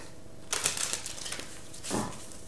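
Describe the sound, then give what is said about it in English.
Cards from a Life Purpose oracle deck being handled and drawn: a quick flurry of soft, papery riffles and flicks, then a brief louder slide of a card, all quiet. “let's get a card from the Life Purpose deck in terms of where you're meant to focus your attention, Aquarius, for the month of April 2020.”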